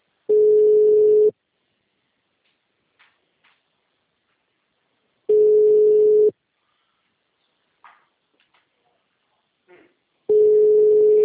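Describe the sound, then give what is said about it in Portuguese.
Telephone ringback tone heard while placing a call: three steady, mid-pitched tones, each lasting about a second, separated by roughly four seconds of near silence with a few faint clicks and small noises in between. “Tô ligando pra essa Jersey.”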